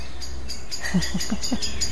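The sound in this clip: Blackbird song: four short tonal notes in quick succession over a steady, noisy outdoor background.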